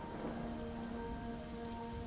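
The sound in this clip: Steady rain falls outside a village house, a dense, even hiss that holds at a constant level throughout, with no voices and no distinct drips standing out.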